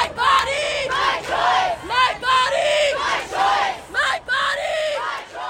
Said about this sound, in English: That's the sound of abortion rights protesters in Los Angeles over the weekend expressing their rage at the Supreme Court's decision overturning Roe v. Wade and vowing to fight it.